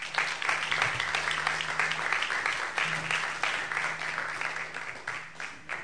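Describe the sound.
Audience applause welcoming a speaker onto the stage at an event in Venice: dense, steady clapping that holds at an even level for about six seconds.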